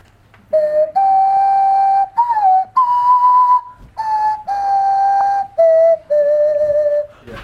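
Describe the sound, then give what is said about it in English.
A tuneful whistle is made by blowing across a pop bottle while wiggling the tongue. About eight clear, sustained notes step up and down in pitch like a simple melody, with brief gaps between them and no voices. “You're going to take a deep breath and blow across the pop bottle while this is in front of your mouth and wiggle your tongue, and that's all you do. Okay, that's the noise.”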